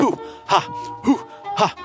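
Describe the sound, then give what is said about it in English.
Voiced hooing and hawing breaths used to warm up before an ice bath: four short, groaning exhalations in a steady rhythm, separated by brief pauses. “the hooing and the hawing also is a way of warming up before the ice bath.”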